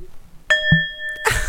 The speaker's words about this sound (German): So, wir läuten ein in die neue Folge Stem Table mit einem kräftigen Gong.